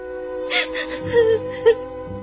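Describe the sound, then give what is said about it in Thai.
A woman cries and sobs in a dramatized Bible scene, with breathy gasps, whimpers and short wavering moans in a fairly loud, uneven rhythm. “อย่าร้องห่มร้องไห้เสียใจอย่างนี้เลย”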